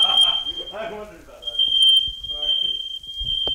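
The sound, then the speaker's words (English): A smoke alarm, set off by smoke from meat seared on a cast iron griddle over gas stove burners, sounds a piercing, steady high tone that runs almost continuously, briefly dipping once, while people talk over it. “It's real smoky in here. After opening all the windows and waving a dish towel over the alarm”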